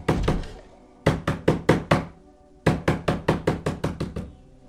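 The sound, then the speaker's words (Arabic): Frantic knocking on a door: rapid, sharp raps in three bursts, a couple at the start, then about five, then a longer run of about eight, each burst separated by a short pause. “الجرس بيرن والباب بيخبط في نفس الوقت.”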